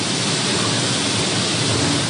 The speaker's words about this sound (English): the driver opens the back and raises the bed. Grain pours into a grating in the ground, making huge clouds of dust.